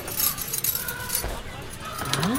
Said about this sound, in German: Hast du den Schlüssel? Ja, hier.